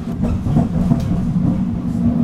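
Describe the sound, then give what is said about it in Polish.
An NF6D tram runs on rails, giving a steady, low, rumbling drone of wheels and motor at an even loudness throughout. “I biegiem zdążyłem do tramwaju NF6D i zaraz sprawdzimy, jaka w nim panuje temperatura.”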